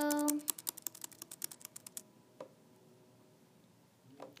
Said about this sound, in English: Type in Zerg Rush. Zerg Rush. Go to Zerg Rush.